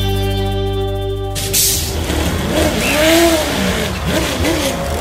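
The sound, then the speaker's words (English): Supercar engine revving at a racetrack in southeast Queensland. A steady tone opens, then gives way to a loud, continuous engine roar with several rising and falling pitch sweeps. “In this episode, I'm at a racetrack in southeast Queensland, about an hour's drive from Brisbane, where supercars teams test and race.”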